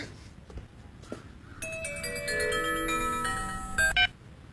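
Phone ringtone signalling an incoming call: bright electronic tones play a quick melodic tune for roughly two and a half seconds after a few faint knocks, ending with a louder burst.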